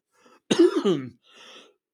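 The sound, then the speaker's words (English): A throat clearing and cough from someone with a frog in the throat: a faint lead-in, one loud raspy hacking burst, then a softer, breathy follow-up. “Excuse me. Boy, frog in the throat tonight.”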